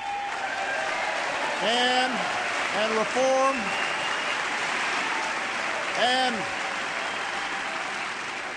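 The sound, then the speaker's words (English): Hesitant audience applause during a political speech on defense spending and wasteful contracts: a steady, subdued wash of clapping runs beneath a speaking voice that comes in short bursts. “You can hear the hesitant applause on some of those lines.”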